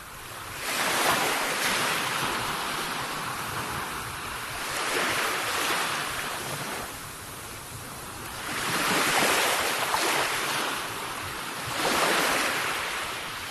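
Ocean waves roll onto the shore at the seaside, several slow surges of rushing surf rising and fading in turn under a steady wash of wind noise.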